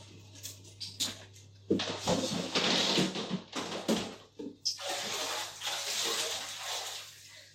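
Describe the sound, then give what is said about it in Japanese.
A rose-scented bath additive is poured into bathwater, making two long stretches of rushing, splashing water. Brief clicks and rustles come before them, with short pauses between the bursts. “なんかバラの香りっていうのを買ったんですよ。これを入れます。”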